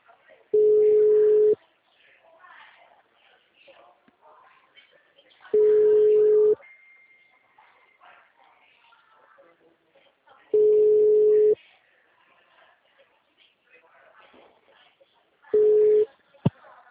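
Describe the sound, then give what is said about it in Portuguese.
Ringback tone plays while a phone call is placed to a client: four steady, single-pitch buzzes about five seconds apart, the last one cut short and followed by a click. Faint talk and background noise fill the gaps. “Deixa eu ligar para esse cliente aqui, peraí.”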